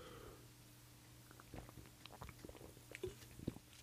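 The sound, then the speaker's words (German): Faint mouth sounds of someone taking a quick sip of a drink: a few soft clicks and small gulps over a low background hum, with no talking. “Ich muss mal einen kurzen Schluck trinken.”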